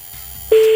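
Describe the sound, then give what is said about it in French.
A telephone ring tone sounds while a listener's girlfriend is being called: faint hiss, then a single steady mid-pitched tone starts abruptly halfway through and holds loud to the end. “On appelle ta copine. Bah, bon, on y va. On a récupéré le numéro en antenne, on y va.”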